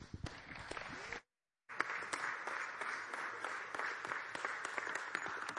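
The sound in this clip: Audience applause welcoming a preacher to the front: steady, dense clapping from many hands, broken by a brief silent gap near the start, then continuing evenly.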